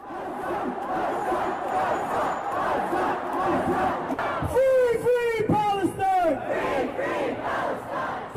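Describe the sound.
A protest crowd chants slogans against Israel at a New York rally over Israeli attacks on Gaza. Many voices shout in loud unison, and the rhythmic chant grows stronger partway through.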